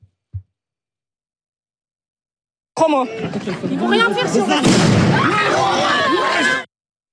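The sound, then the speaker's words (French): A stun grenade detonation rated at 160 decibels. After a faint pop, a sudden loud blast erupts into roughly four seconds of harsh, crackling noise, then cuts off abruptly. “Vous avez parlé vous-même d'une grenade assourdissante. 160 décibels. Voici ce que cela peut donner.”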